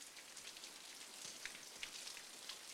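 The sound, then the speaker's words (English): Rain pours down as a faint, steady hiss with soft scattered patters of drops. “Rain pours over his body.”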